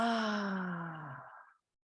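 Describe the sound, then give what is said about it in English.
A long, deep exhale during a guided breathing exercise, released as a soft voiced sigh whose pitch slowly falls and fades out over about a second and a half, alone and quiet. “Everybody take in a big, long, deep inhale. And exhale all the way out.”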